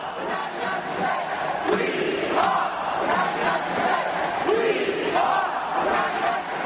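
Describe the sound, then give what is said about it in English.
A crowd of protesters chants in unison as they march to One Police Plaza in New York City, a loud, steady wall of many voices with repeated rhythmic shouts running through the whole stretch. “That is sound that Matt took from Friday. As people march to One Police Plaza in New York City, we are the 99%,”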